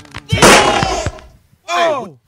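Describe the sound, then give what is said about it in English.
Gunshots fired during a Christmas party scene: a loud, harsh burst with a few sharp cracks inside it, followed by a brief silence and then a voice exclaiming. “Oh. Hey. Oh. You just shot Vinny. Oh. And Paulie.”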